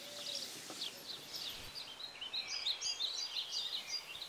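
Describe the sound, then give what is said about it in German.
Eurasian tree sparrow calling: a busy run of many short, high chirps and twitters, fairly faint and continuous, with no voices. “korrekt heißt diese Spatzenart Feldsperling.”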